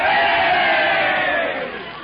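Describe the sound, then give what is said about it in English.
A crowd of fans cheers and shouts for the Meatball team at a football game, a dense, sustained roar of many voices that holds steady and then eases off slightly toward the end. “And now, the Meatball cheering section.”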